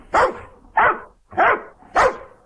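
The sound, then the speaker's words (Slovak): A dog barks four times, loud, in an even rhythm of sharp, full barks with brief quiet gaps between them. “Ten psík znie takto.”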